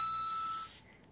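Phone email notification tone resembling jingling coins: one faint, bright high chime that rings for well under a second and then fades away.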